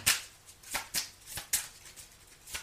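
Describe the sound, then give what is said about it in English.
Playing cards being dealt, a few crisp papery snaps and flicks at uneven intervals, faint and alone without talk. “May I have some more cards, please? Thank you. And I'll take that one.”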